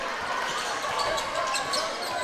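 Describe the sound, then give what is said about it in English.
A basketball is dribbled near the sideline logo during a college game between the Red Wolves and the Saints, with quick bounces under steady, loud crowd noise. “He dribbles near the logo on the sideline.”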